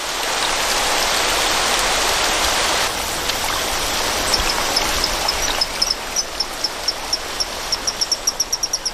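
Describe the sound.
Rushing stream water hisses loudly and steadily at dusk. In the second half, short, high chirping calls repeat at a regular, quickening pace above the constant water noise.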